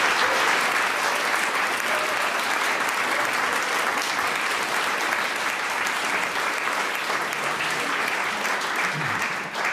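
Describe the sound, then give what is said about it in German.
An audience applauds at a literary event at the Literarisches Kolloquium, with dense, steady clapping that fills the whole stretch at an even, lively level. “Regelrechte Fanrufe gibt es hier im Literarischen Kolloquium. Das ist sehr schön, das soll so bleiben.”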